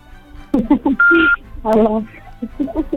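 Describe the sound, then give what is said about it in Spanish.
A telephone keypad tone sounds during a phone call on a call-in show: one short steady electronic beep set between bursts of speech, as people talk over the line. “No, estás marcando y no.”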